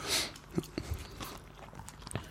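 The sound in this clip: A person chewing and biting into food: a few soft, crunchy bites at irregular intervals, fairly faint, with no talking.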